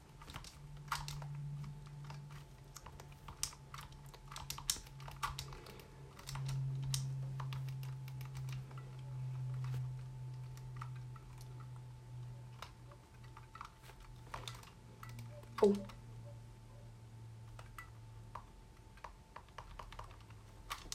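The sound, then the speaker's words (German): Buttons are pressed while playing a video game, giving many sharp, quick clicks in irregular bursts throughout over a steady low hum, with one louder click partway through. “Das ist halt schon echt anstrengend, die ganze Zeit die Knöpfchen zu drücken.”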